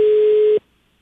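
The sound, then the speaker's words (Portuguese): Telephone dial tone after a dropped call: one steady, mid-pitched tone that holds evenly, then cuts off abruptly into near silence. “Alô? Alô, caiu a ligação.”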